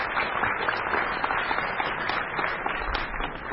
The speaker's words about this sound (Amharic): መግቢያው ላይ እነነ የሰማን ጭብጨባ በዛ በእለቱ በአዳራሹ የነበሩት የፕሮግራም መሪ ሁለቱን ሙያተኞች ባልና ሚስት ያስተዋወቁ ነው።